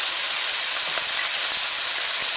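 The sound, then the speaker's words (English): Raw shrimp sizzling in hot oil in a pan: a loud, continuous, bright hiss that stays even for the whole stretch. “Okay guys, so we are heating some oil in our pan. So we're gonna add our shrimp here first. So we are using raw shrimp.”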